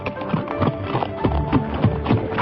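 Galloping horses with hooves clattering, a rapid and continuous drumming of hoofbeats that stays loud and busy throughout, with no pauses.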